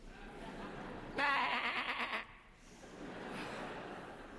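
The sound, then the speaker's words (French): A young goat bleats once, a wavering, quavering cry that lasts about a second and stands out above quiet background noise, followed by softer murmuring sounds. “Oh là là, quelle petite bique!”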